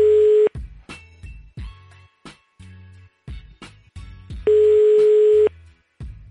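Ringing tone on an unanswered telephone call: steady, mid-pitched beeps about a second long, spaced roughly four seconds apart, with faint low thumps in the gaps between rings.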